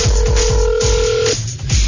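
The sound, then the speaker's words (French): Telephone dialing: a steady electronic tone holds for about a second and a quarter, then cuts off abruptly. Repeated low thumps run underneath it and continue after the tone stops. No one speaks. “Et maintenant, on va prendre le téléphone”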